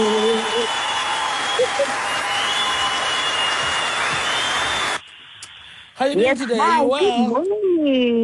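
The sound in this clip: Applause sound effect greets a guest arriving on a show: dense, steady clapping for about five seconds, cut off abruptly, followed by people talking and laughing.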